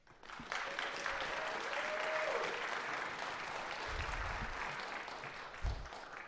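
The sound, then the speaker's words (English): Audience applause at a Yale debate event welcoming a guest speaker, a dense, loud, continuous round of clapping that swells in quickly and holds steady for several seconds with a few heavier thumps near the end. “So give it up for Stephen Bennell.”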